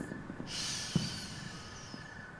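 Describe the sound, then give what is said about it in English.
A slow, deep breath drawn in through the nose during a guided breathing exercise, heard as a soft airy hiss that begins about half a second in and holds, faint and calm against a quiet background. “take a nice deep breath in through the nose”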